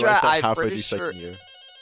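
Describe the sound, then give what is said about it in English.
An incoming telephone call rings with a steady electronic tone. A voice speaks first, then the ring starts and continues alone to the end. “Hello? We got a caller. Hang on, we got a caller.”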